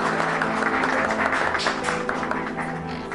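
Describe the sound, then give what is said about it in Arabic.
Guests applaud in honour of the bride at a wedding, a continuous wash of clapping that holds steady and thins slightly toward the end. “يلا سمعونا زقفة مرتبة على شرف العروس. تفضلي”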